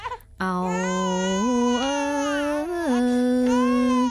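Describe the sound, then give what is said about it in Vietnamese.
A baby cries in one long, loud wail after a brief breath. The cry steps up in pitch partway through and later falls back. “Nín, nín đi con, nín, để mẹ ru con ngủ nghe.”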